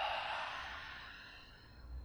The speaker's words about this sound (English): Take a deep breath in through the nose and a deep breath out through the mouth.